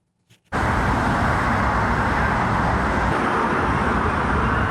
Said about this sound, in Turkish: Aynı zamanda o çevrede yoğun araç trafiği de var.